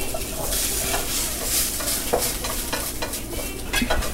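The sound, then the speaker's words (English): Meat sizzling in a pot on the stove, a steady crackling hiss with stirring scrapes and clinks from a utensil against the pot, and no voices. “To cover the meat and let it cook for a while.”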